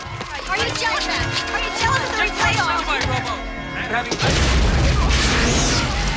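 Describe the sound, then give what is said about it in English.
A sudden, loud explosion erupts in a ball of flame during an action scene in the film RoboCop. Voices come first, then the blast hits near the end as a heavy, roaring burst that stays loud to the finish. “Suddenly, the ground erupts in a ball of flame, and Kane bursts through. Officers start firing at him from both sides”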